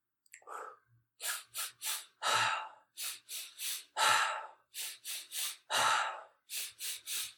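Someone breathes in three quick sniffs through the nose, then lets out a longer sighing breath, repeating this fast pattern three times before starting again, with no talking.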